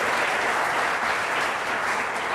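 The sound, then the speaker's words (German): Applause for the young people from a gathered audience, with dense, continuous clapping from many hands that holds at an even, moderate level throughout. “Mal einen Applaus für die Jugend, das ist wirklich schon fast 3 Jahre her.”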